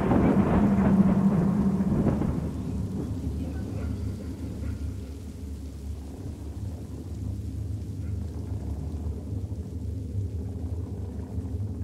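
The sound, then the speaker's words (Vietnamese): Rain falls steadily outside during a storm, with a heavy low rumble of thunder in the first couple of seconds. A softer continuous hiss of rainfall follows and runs to the end. “Bên ngoài cơn mưa vẫn rả rích.”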